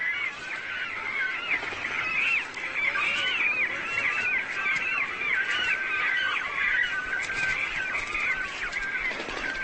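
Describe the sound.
Cormorants call noisily while fighting over nest sites at the start of their spring breeding season: harsh, overlapping calls from many birds form a loud, continuous din with no break.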